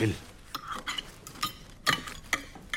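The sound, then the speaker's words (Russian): Pots and utensils clink as food is cooked on a stove in a home kitchen, giving irregular sharp metallic taps and scrapes, with voices talking over parts of it. “Дома, на кухне, Сэм в костюме Джека Воробья готовит еду на плите.”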